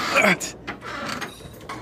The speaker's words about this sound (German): die Tür musst du wirklich aufhebeln. Okay, wir müssen mal schmeißen. Also dann mal auf mit der Tür.